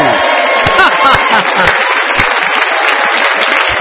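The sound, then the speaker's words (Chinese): Audience applause at a live stage event, a dense, steady clatter of clapping with voices calling out over it throughout. “掌声没有？”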